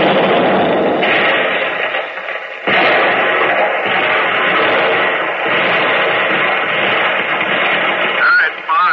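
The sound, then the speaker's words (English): A ship's gun turret fires shells at a German tank, a heavy, muffled, band-limited roar broken by several abrupt booming bursts that follow one another, loud and nearly continuous. “Target, German tank, range 5900, bearing 325, fire.”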